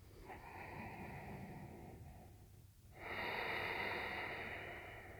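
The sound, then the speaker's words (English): Breathing through the nostrils with a constricted throat, a steady rushing hiss like ujjayi breath: two long breaths split by a brief pause, the second louder and brighter. “Maintaining that same constriction in the back of your throat with both your inhales and your exhales. But breathing instead through your nostrils.”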